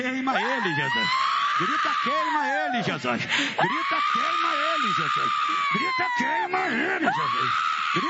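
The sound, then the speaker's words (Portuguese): A person screams during an exorcism, with long, high, strained cries that waver and bend in pitch, broken by brief pauses into a few sustained outbursts that stay loud throughout. “eu falo com você Satanás, pode dar o teu grito de derrota agora”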